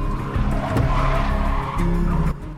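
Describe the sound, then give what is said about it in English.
A car drifting through a bend gives a sustained, loud tire squeal over a roaring engine, with a slight dip in intensity partway through before the skid carries on to the end. “Neela proceeds into a drift with the minimum of effort.”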